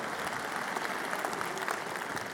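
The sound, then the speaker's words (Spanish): Applause from an audience at a Bible study gathering, sustained, even clapping from many people that stays at a constant moderate level for the whole stretch. “Démosles un aplauso a los de media para que los animemos.”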